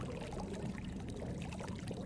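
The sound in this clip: Wine being poured, a soft, continuous splashing trickle at low volume that runs steadily throughout.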